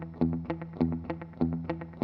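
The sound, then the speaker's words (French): Electric guitar octaves on the note E, picked with a plectrum in a hybrid chicken-picking style through a slap echo effect, a steady pulse of bright, evenly spaced notes, each followed by a short repeating echo tail. “On voit que ça marche très bien avec un slap echo.”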